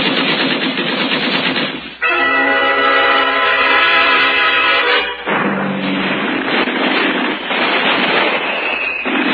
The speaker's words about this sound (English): Past the rocks they marched. And the Earthmen fired as fast as they could reload.